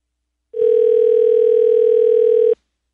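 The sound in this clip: A telephone tone sounds as a call goes out to a dad from a blocked number, one steady, unbroken hum lasting about two seconds that starts and stops sharply against silence.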